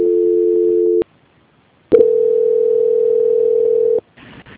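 A telephone tone during a call transfer: a steady tone for about a second, a short silence, then a click and a longer steady tone lasting about two seconds, ending with a brief burst of different line noise.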